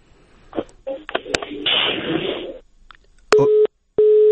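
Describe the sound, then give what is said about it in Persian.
A busy tone after a telephone call to a reporter cuts off. Garbled line noise and a voice come first, then two short, loud, steady beeps of equal pitch. “تماس ما متاسفانه با امید زهیرمل خبرنگار ما در ارگ ریاست جمهوری قطع شد.”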